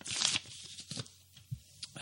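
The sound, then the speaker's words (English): A paper envelope is torn open by hand, with a few quick, crisp ripping bursts that are loud at the start and then trail off into softer tearing and crinkling. “let me just get the envelope here and crack her open”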